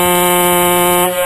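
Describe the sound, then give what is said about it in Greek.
A horn sound effect blares as one loud, sustained, buzzy tone that stays at a steady pitch and shifts slightly just before it ends. “Ω, κόρνα. Πολύ καλό.”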